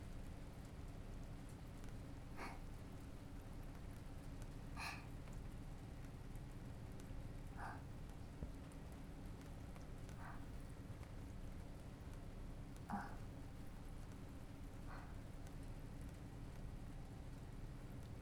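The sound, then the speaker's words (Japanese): Heavy rain falling at a park: a steady, low hiss of downpour throughout, with a few sharper drip-like taps at irregular intervals. “雨、少しも弱まりませんし。”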